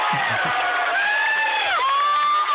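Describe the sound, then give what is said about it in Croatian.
Fans in Velika Kladuša cheering for Slovenia, with crowd shouts and whoops under sustained, shrill, wavering tones, along with a few voices calling out. “Jel to publika tamo u Kladuši ili je ovdje neki efekt? Ovo je publika, više manje Ljiljanovci, društva Ljilja.”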